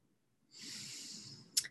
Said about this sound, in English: Breathe it in, three big deep inhales.